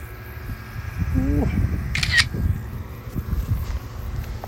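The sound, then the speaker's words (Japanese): A camera shutter fires once as a photo is taken during a recording. It is a single short, crisp snap over a steady low background rumble. “これはレコーディング中でも写真が撮れるはずなんですよねあ撮れたかなカシャって言ってんのかな”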